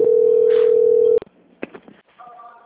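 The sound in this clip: A telephone line sounds a steady single-pitch tone while a call is being transferred. The tone cuts off abruptly, followed by a few clicks and softer, fainter tones on the line.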